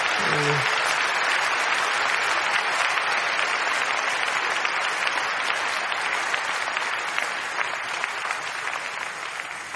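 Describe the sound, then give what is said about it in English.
A church audience at the Redeemed Christian Church of God claps in a big round of applause after prayer. A dense, sustained roar of hands continues for the whole stretch and eases slightly toward the end, with a brief voice at the start. “Now, I think we should give the Lord a big round of applause for that.”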